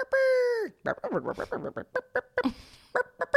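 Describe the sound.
A human voice imitates a bird in a tree making rooster-like crowing, beginning with a sustained, held tone that drops off at its end, then giving way to ordinary talking.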